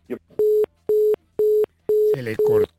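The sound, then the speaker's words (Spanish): A busy tone follows a dropped telephone call: five short, steady, mid-pitched beeps, evenly spaced and separated by silence. A person's voice talks over the last two beeps. “Se le cortó la llamada, se le cortó.”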